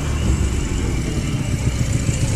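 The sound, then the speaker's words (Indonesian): A motorcycle engine runs with a steady low rumble, holding an even, continuous drone throughout with no clear revving or other sounds on top. “Meskipun aku sudah gas terus menerus Motorku melambat”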